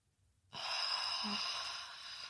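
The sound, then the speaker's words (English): A long, deep breath drawn in during a guided relaxation exercise: a steady, breathy hiss that starts abruptly and holds for nearly two seconds, with no talk over it. “Another deep breath in. Loosening up your body.”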